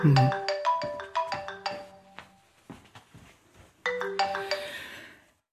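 A phone ringtone plays a melodic run of bright electronic tones, then falls quiet and starts the melody again, moderately loud and with no talk over it.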